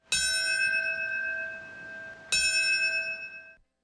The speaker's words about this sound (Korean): 오전 8시 46분, 첫 여객기가 건물에 충돌했던 시각에 맞춰 종소리가 울려 퍼집니다.